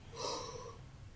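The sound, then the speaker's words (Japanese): A single sharp inhalation through the nose, a brief, airy snort-like draw of breath lasting about half a second, fairly faint and alone. “鼻から息を吸うとですね、お腹が膨らます呼吸がしやすくなるのわかりますちょっと今やってみます。”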